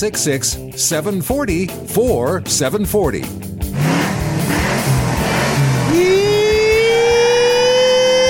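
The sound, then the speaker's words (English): After a few seconds of talking, a car engine revs hard with squealing tires. A rising, high whine then holds steady and loud to the end. “aside from the squealing tires, which we will still have down the road, we won't have an internal combustion engine to make those crazy noises.”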